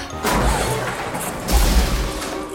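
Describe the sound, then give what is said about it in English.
Crash of a soccer ball smashing into an oscilloscope: a heavy, booming impact with a rattling smash, followed moments later by a second deep thud. No voices are heard. “Look, you broke the oscilloscope. No, I didn't. The ball was headed straight for the box until you knocked it away.”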